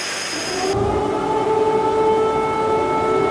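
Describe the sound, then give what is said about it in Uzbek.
An air raid siren sounds over Kyiv during a Russian drone attack. The loud, steady wailing tone holds for the entire clip, and no voices can be heard. “Poytaxt Kiyev bo'ylab havo trevogalari yangragan”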